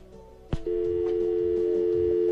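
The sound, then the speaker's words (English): Telephone line signal from an incoming call: a sharp click, then a steady, unbroken single-pitch tone that holds at an even level to the end. “Okay, it looks like we may have a caller on the line here, so let's see what we have here.”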